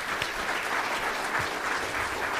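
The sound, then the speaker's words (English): Applause from a church audience: a dense, steady wash of many hands clapping together at an even loudness throughout, with no voices standing out above it. “Can you give them an applause?”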